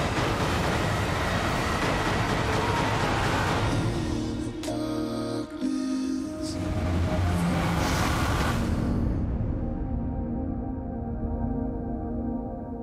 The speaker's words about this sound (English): All right, so that was the trailer for Exodus, Gods and Kings.